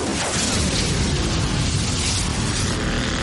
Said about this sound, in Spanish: El caza explota a la salida del túnel.